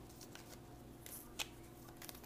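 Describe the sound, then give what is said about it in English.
Faint handling and shuffling of Lenormand cards: soft papery rustles and a few light slaps, with one sharper tap partway through, over a low, steady background hiss. “So let's take five cards and see what Lenormand has to say about 2021.”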